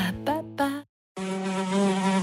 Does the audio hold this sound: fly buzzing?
yes